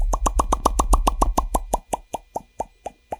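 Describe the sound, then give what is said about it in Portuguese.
A hand slaps against the chin to make hollow, mid-pitched popping sounds, with no bottle used. Nearly twenty quick, rhythmic pops come at first, then they gradually slow and grow fainter toward the end. “Agora acabando o som, sem garrafa, sem nada, com a mão batendo nos queixos, que eu quero ver se o meu queixo tá bom.”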